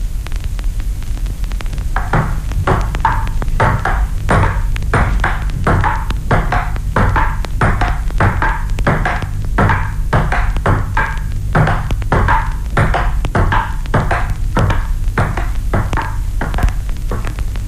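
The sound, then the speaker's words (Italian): A celluloid ball bouncing back and forth, alternating between the left and right stereo channels: a long, steady run of bright, hollow ticks in an even rhythm over a low hum. “Può udire distintamente la pallina di celluloide rimbalzare alternativamente una volta a destra, e una volta a sinistra.”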